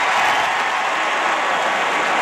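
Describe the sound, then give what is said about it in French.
A stadium crowd gives an ovation during a solemn ceremony: a dense, loud wash of applause and cheering that stays steady and unbroken throughout. “Et ce sera encore l'ovation.”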